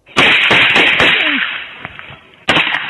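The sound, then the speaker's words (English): Gunfire from police video of a gun battle at a family home in Volusia County, Florida, as deputies return fire: loud, sharp cracks in a quick early cluster, a lull with faint pops, then another sharp report. “Some startling new video released in Florida after the conviction of a man arrested in 2016 shows police officers in a gun battle rescuing three children and their mother.”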